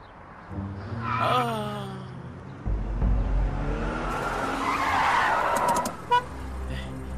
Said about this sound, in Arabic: انت كيف جبت السيارة بهي السرعة؟ ها؟ عم بقول لك كيف جبت السيارة؟